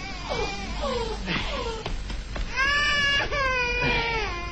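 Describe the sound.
An infant cries loudly and continuously, with wailing, sobbing bursts whose high pitch sweeps down in arcs early on and then wavers in sustained, strained cries.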